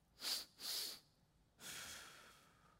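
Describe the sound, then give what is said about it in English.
Two quick, sharp inhales through the nose, one right after the other, then one long, steady exhale through the mouth, as in a breathing exercise. The sounds are soft and breathy, with no talk. “Two back to back breaths through the nose and one long exhale through the mouth. It goes like this.”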